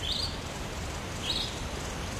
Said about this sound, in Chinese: 小鸟， 小点声，别惊扰了它。